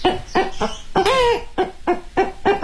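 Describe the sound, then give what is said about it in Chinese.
A voice imitates a hen in a vocal mimicry performance: a string of short, sharp clucks, loud and alone, broken near the middle by one longer, wavering drawn-out cackle. “你比如说老母鸡，”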